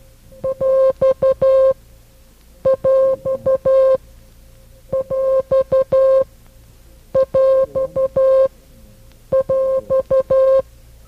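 A coded beeping signal marks the separator between the whole number and fraction of a mixed number: five repeated groups of short, steady mid-pitched tone pulses, clean and loud with brief silences between groups.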